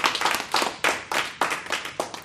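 Clapping greets a guest who is welcomed onto the program. A small number of hands make brisk, sharp, slightly uneven claps in quick succession with no voices.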